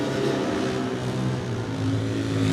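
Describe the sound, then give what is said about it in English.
A Stanford Racing Honda 504 racing motorcycle pulls away at the start of a race. Its engine gives a loud, sustained roar with rich harmonic layers, heard without talk. “George Halliday is next to go on the Stanford Racing Honda 504. George settles in, puts his head down behind the bubble and away.”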